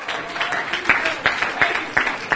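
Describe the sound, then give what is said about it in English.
Church audience clapping hands in praise, a steady rhythmic beat of sharp claps riding over a continuous wash of applause. “Let's clap our hands unto the Lord and give him some praise.”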